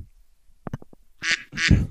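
Duck quacking sound effect: a quick run of short, clipped quacks, followed by two louder, longer and harsher quacks, alone against silence.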